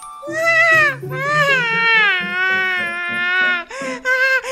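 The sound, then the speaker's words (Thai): A voice imitates a baby snail crying loudly in a children's story, with several long, drawn-out sobbing wails that waver in pitch, broken by brief catches and ending in shorter whimpering bursts. “ลูกหอยทากจึงได้ร้องโฮออกมาและได้กล่าวว่า”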